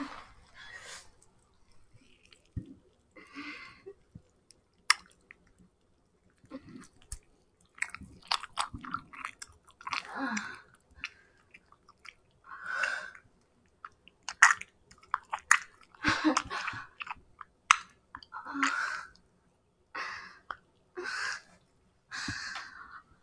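Chewing and biting on ice cream, with wet, squishy mouth sounds coming in many short bursts separated by brief pauses. The sounds are fairly quiet, with no talking.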